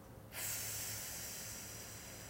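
A long, deep exhalation at the end of a relaxation breathing exercise: a steady, soft, airy hiss that starts after a brief pause and holds to the end.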